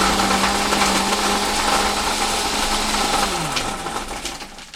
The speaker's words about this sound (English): All right, so just added a bunch more ice. Throw some more ice and maybe not blend this ice so much. Just a little mix.